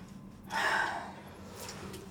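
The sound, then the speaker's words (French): Deep inhalation taken as part of a breathing exercise before a timed long exhale: one breathy, airy intake of breath that swells quickly and then tails off into quiet hiss. “Je vous vois prendre une grande inspiration et je vous chronomètre.”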